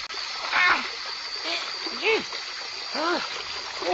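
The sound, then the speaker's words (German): Water running into a plugged basin: a steady rushing hiss continues throughout, with short, squeaky, voice-like sounds rising over it. “So, also jetzt mal zuerst Stupsel rein und dann Wasser laufen lassen.”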